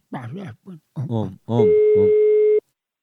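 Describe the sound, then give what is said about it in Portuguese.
A steady telephone line tone sounds for about a second while an outgoing call is placed. It follows a few short spoken phrases, a voice overlaps its start, and it then cuts off cleanly. “Eu vou ligar agora.”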